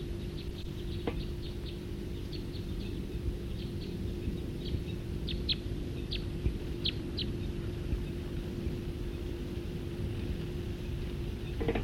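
A bird calling in flight: many faint, short, high chirps scattered across a steady background of low noise.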